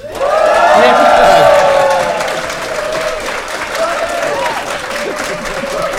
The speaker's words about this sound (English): Make some noise, New York!